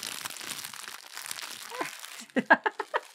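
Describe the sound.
Crinkling of a cherry Pop-Tart wrapper being opened: a quiet, murky stretch gives way near the end to a few sharp, crackly bursts of plastic, clearly louder than what precedes them.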